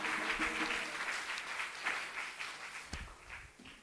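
A church audience applauds during a worship service, a steady, fairly quiet patter of many hands that continues through the whole stretch with a slight easing toward the end.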